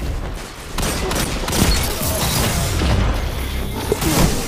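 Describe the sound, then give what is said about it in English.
Fusion rifle gunfire in a video game, a loud, dense barrage of crackling bursts with heavier booming hits punching through near the end. “That guy is on a fusion rifle killing spree.”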